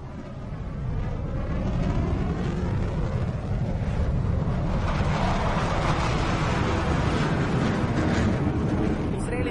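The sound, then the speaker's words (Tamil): Aircraft flying overhead: a broad, rushing roar that builds within the first second and then holds as a loud, steady rumble to the end. “அவை எங்கள் விமானங்கள் அல்ல, அந்த திசையில் இருந்து அல்ல.”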